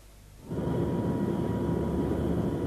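A Viscount airliner's engines as it taxis to the runway. A quiet hum jumps within half a second to a loud, steady roar that holds unchanged to the end, with a thin high whine running through it.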